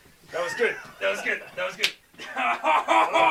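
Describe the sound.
A single sharp slap as a person is hit, one crisp smack landing amid lively talking and exclamations from the people present.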